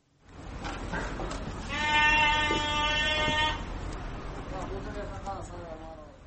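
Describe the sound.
A long, wavering bleat from fat-tailed sheep at a small livestock market in Bishkek rises above a continuous murmur of crowd noise and voices, with fainter bleats following.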